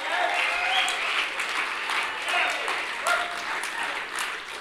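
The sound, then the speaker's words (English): An audience at a worship gathering applauds, with dense, sustained clapping and voices calling out within it. “Amen. Let's give him a hand.”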